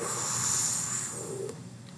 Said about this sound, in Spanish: Por la nariz. Inhala.